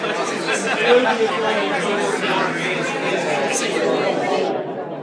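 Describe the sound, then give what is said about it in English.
Many voices talk over one another in a noisy assembly at lunchtime in Barkham Cork. A steady, overlapping hubbub of conversation continues without pause. “So this is it. This is the sound of Barkham Cork lunch.”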